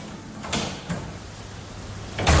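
Mechanical whirring and clunking of a jukebox selecting a record, a few short sliding bursts over a low steady hum, with a louder clunk at the end.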